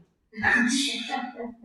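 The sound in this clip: A person chokes and gasps after inhaling water while drinking: a sudden sputtering burst after a brief silence, followed by strained, voiced gasping breaths.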